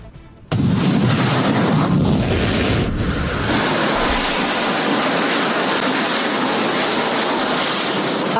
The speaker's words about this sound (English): That, of course, was yesterday when SpaceX was trying to launch its Starship rocket.